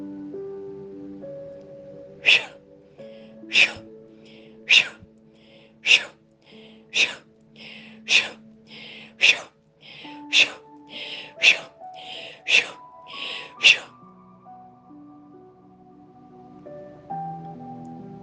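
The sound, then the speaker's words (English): Sharp, forceful exhales during guided breath work, about a dozen short breathy bursts at a steady pace of roughly one per second, over a soft sustained musical drone whose notes shift. “Let's do some breath work and release.”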